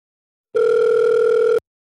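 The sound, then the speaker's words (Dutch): A single ringback tone from an outgoing phone call sounds as one steady, loud electronic tone lasting about a second, alone in silence. “Nou, we gaan haar bellen.”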